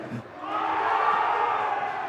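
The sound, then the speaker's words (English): A hockey game crowd roars in cheer, building quickly into a loud, sustained wall of voices that holds steady to the end. “I feel like I make a point and they cheer, and it boosts my ego.”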